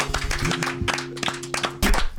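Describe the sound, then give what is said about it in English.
Applause from an audience next door, a patter of hand claps with sharp recurring peaks over a steady tonal hum, moderately loud and continuous throughout. “Look at that applause next door. Look at the applause.”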